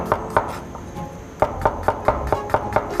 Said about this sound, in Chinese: 这些都要切碎。 对，都把它切碎。